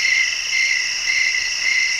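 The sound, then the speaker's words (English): Crickets chirp in a steady, unbroken high-pitched trill that stays at an even level from start to finish, with no voices. “I'm going to go crickets.”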